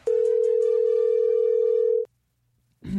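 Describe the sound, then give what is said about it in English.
Telephone line ringing as a call is placed: one steady, clear ring tone lasting about two seconds, then silence, with another sound starting at the very end. “I'm guessing on the number I'm dialing here. I hope he answers.”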